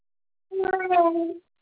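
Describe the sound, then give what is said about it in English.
A one-year-old baby babbles in a single short voiced burst lasting just under a second, tonal and expressive, with nothing else around it. “I'm just trying to feed my 1-year-old because he's babbling in the background.”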